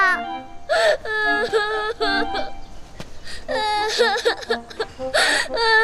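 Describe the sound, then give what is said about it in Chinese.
A child cries in whimpering, wailing sobs with a wavering, high pitch. The bursts repeat throughout, with a brief lull near the middle before the crying resumes loudly. “哎呀，孩子，别哭”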